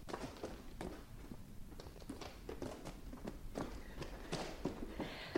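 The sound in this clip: Children run on foot in quick, uneven patters of many light footfalls, faint and hurried throughout.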